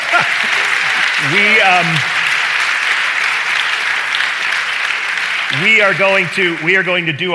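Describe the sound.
A live studio audience at a Messiah College Educator's Day event applauds in a steady, continuous wash of clapping, with a voice speaking over it briefly early on and again near the end.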